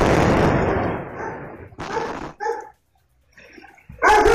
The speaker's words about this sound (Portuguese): Tem ali o som, um ruído normal da área. E aí a explosão por gás, depois cachorro latindo